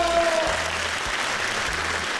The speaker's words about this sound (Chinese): 给自己一个掌声鼓励鼓励